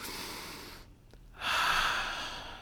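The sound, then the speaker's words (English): Deep, audible breath in: a breathy hiss that drops away briefly, then swells louder and holds steady to the end, with no talking. “And let me hear the breath. This is an audio format, so we really need to hear the inhale.”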